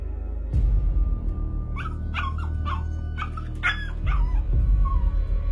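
A dog yelps in pain after falling from a tiled roof into a back garden. Several sharp, high, whining yelps come in quick succession over steady low background noise, followed by a fainter whimper.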